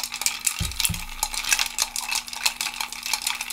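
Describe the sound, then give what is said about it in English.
A spoon stirs a Martinez cocktail of vermouth, bitters and maraschino liqueur: two sharp metallic clinks come first, then light, continuous scraping and rattling over a steady low hum. “Give it a stir, and then we're going to strain it into cocktail glasses with a lemon twist.”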